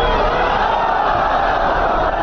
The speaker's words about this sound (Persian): هزاران تن از باشندگان هراتی در مقابل استادیوم ورزشی هرات با دست داشتن عکس‌های از قماندانان جهادی و پرچم‌های سبزرنگ شعار دادند.